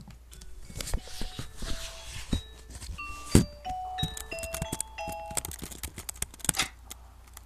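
A doorbell chime at a house in a Halloween trick-or-treat video game, heard as a series of short, clear tonal notes among light clicks and taps, fairly faint.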